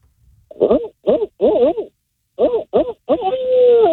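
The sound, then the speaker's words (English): A man imitates a barred owl call with rhythmic hooting syllables in two phrases, three quick hoots then a second run ending in a long, drawn-out, wavering hoo. “I got to hear that Bard Owl call before we let you go.”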